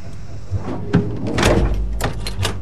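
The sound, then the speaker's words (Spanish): Apollo spacecraft hatches being closed and sealed from inside, a few heavy metallic clunks and thuds with a rumbling, sliding scrape in the middle, fairly loud. “Los tres astronautas entran al Apolo, cierran las escotillas, Ed la sella desde el interior.”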